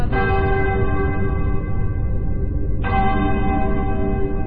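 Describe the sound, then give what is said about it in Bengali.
A church clock bell strikes two: two loud ringing tolls about three seconds apart, each with a rich metallic tone and a long humming decay. “গির্জার ঘড়িতে ঢং ঢং করে 2 বাজল।”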